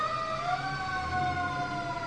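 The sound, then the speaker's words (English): Sirens from passing emergency vehicles sound as a steady, continuous wailing tone. It runs loud and unbroken through the whole clip, with slight wavering in pitch and a low rumble of road traffic beneath. “You know, pause for these emergency vehicles.”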